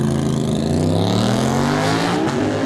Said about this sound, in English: just hitting that rev limiter there, but he is away